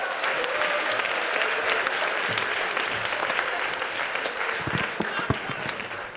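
A comedy roast audience bursts into loud, sustained applause, dense rapid clapping that continues evenly and alone throughout.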